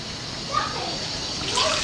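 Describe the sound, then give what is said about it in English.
Running water flows as a small child washes her hands before eating again. The water makes a steady, moderate hiss, and a child's voice is briefly heard over it. “She wants to wash the hand and eat again.”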